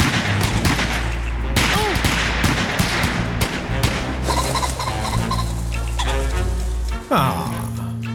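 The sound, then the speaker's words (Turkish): Gunshots fired in many rapid bursts, loud sharp cracks packed densely together over a noisy, chaotic background, with a brief dip and a sudden burst near the end. “Yanılmıyorsam Joe'u vurdum. Öyle oldu. Adam vuruldu.”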